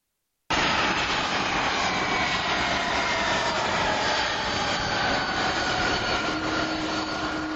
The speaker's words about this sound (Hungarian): Így landolt Budapesten a hét elején az Airbus 330-200-as utasszállítógép.